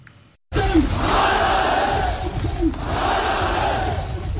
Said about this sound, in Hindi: सुनिए इन नारों को, ये नारे किसी आम प्रदर्शन के नहीं हैं